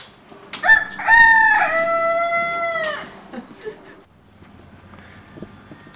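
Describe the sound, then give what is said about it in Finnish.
A rooster crows once, loud and drawn out, among domestic farm animals kept near a zoo, then fades into faint low background sound. “siellä oli ihan talleja ja lehmiä ja että siellä pidettiin ihan kotieläimiä. Ja pidetään nykyäänkin tässä lähistöllä, niin kuin kuuluu.”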